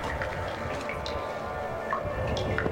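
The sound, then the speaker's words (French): Water drops dripping, a few sparse, bright plinks spaced irregularly over a steady, sustained tonal drone. “Ça, c'est les gouttes d'eau. Ça, je connais.”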